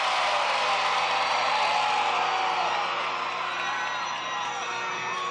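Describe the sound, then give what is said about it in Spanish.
An audience of women shouts and cheers, a dense, loud, high-pitched wall of screaming voices that holds steadily for about five seconds and eases slightly near the end. “Vamos a ver quién grita más. ¿A dónde están las mujeres?”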